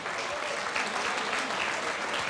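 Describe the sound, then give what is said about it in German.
An audience applauds a brass band, Blasmusik Katzelsdorf, with thick, steady clapping that stays at an even, fairly loud level for the whole short stretch, with no voices. “Danke, das ist ein Applaus. Dankeschön.”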